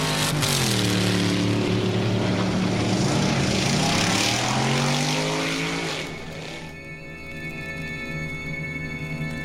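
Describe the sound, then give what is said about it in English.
Roaring drag racing car engine at a drag strip, loud and harmonically rich, its pitch climbing as it accelerates before the roar eases and drops lower into a steadier hum for the last few seconds. “compiling this album from the results of these trips in the form of a stereophonic recording, which truly does reproduce the big sounds of the drag.”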